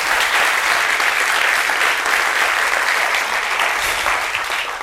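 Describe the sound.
Warm audience applause greets a panel at a library foundation talk event. The clapping is dense and loud, holds steady throughout, and eases slightly at the end.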